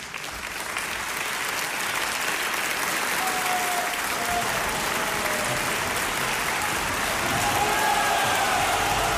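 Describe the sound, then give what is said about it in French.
Audience applause builds into an ovation: dense, steady clapping that holds at an even, fairly loud level for the whole stretch and never breaks into separate claps. “Cette ovation pourrait être la vôtre.”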